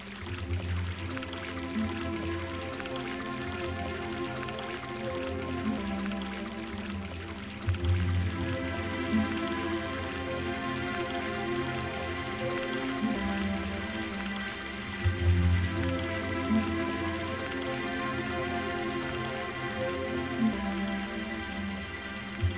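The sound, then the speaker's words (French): Water gurgles along a riverbank in a steady, continuous burble, with a few slightly louder swells and no voices. “J'aime le gloussement de l'eau.”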